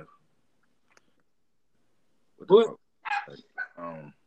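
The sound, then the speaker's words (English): A dog barks a few times in short, loud bursts after a long near-silent stretch, the barks coming in a quick uneven run. “Who got a dog?”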